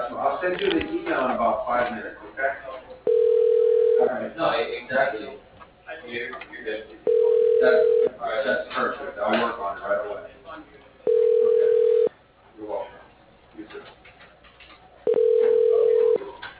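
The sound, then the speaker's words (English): Four evenly spaced one-second telephone ringback tones sound while a call is being transferred, each a steady, moderately loud single pitch, with people talking in the gaps between them. “Okay, let me transfer you. One moment.”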